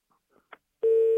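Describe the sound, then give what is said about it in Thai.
Telephone call signal: one steady, fairly low tone about a third of a second long, preceded by a few faint brief clicks. “เดี๋ยวรับโทรศัพท์ก่อนนะครับ”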